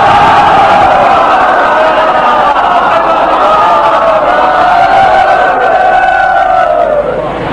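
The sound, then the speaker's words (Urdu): At a religious celebration, a large crowd loudly chants salawat as a congratulatory cry. Many voices hold one sustained, powerful unison chant almost throughout, dipping only at the very end. “لہذا بلند ترین نعرہ صلوات کے ذریعے امہ کی سرکار میں مبارکباد”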